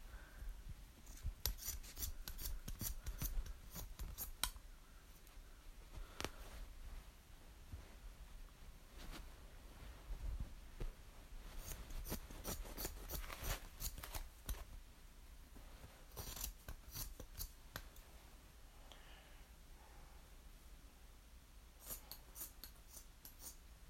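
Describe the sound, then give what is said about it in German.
Scissors snip through craft material, a piece meant as a little blanket, in quick clusters of short, crisp cuts separated by pauses. The snipping is faint and dry, with no talking. “Also das ist jetzt vielleicht die Decke. Dann schneide ich das jetzt erstmal schön runter.”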